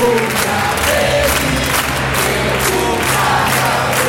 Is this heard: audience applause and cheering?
yes

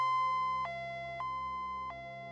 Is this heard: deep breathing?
no

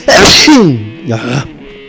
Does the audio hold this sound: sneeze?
yes

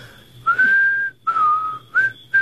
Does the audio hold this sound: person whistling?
yes

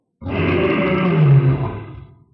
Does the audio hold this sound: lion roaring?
yes

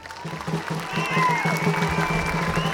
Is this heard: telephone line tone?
no

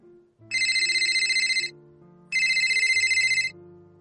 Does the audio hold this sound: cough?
no

